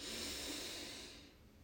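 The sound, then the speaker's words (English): A slow, steady breath is drawn in through the nose during a guided relaxation breathing exercise. It makes a soft, airy rush that fades out toward the end, with no talk over it. “Hand on belly. Breathe in through the nose.”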